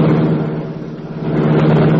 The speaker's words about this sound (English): The great car roared into life.